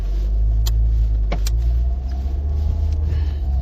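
Steady low road rumble from a car driving on the road, a loud, continuous engine-and-tire drone with a couple of brief clicks early on.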